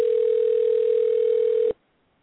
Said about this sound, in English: So dial in right now